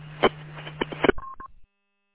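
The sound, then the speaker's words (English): Telephone keypad tones dialed to reach a remote radio controller: a few brief clicks over a low hum, then two short dialing beeps, then silence. “I got it dialed up here.”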